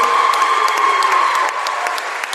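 Crowd applause and cheering for a basketball player, number 33, at a game form a loud, dense, continuous roar of clapping that eases slightly partway through.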